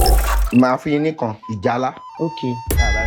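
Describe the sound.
A ding marks a wrong answer on a TV game show. The bright, ringing chime sounds near the end, after people talk.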